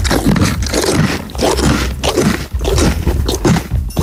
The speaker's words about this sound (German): Da wird aber laut gekaut. Kannst du nochmal, bitte? Ronny Pony, möchtest du noch was fressen?